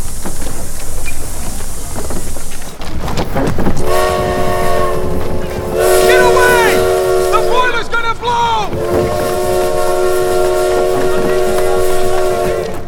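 A passenger train arrives at a station in a devastated town. A dense low rumble runs throughout, joined by long, loud, steady whistle tones, a brief wavering whistle note, and then another sustained blast.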